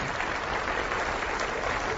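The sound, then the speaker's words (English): A church audience applauds during a sermon, and the clapping of many hands is dense and uniform for two seconds. “Hey, you can clap for that.”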